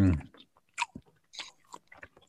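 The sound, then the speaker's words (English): Someone chews a sandwich, making soft, wet crunches and mouth smacks in an irregular rhythm. The sounds are fairly quiet, with short pauses between them. “You suck on your vape and I'll chew my sandwich at the same time.”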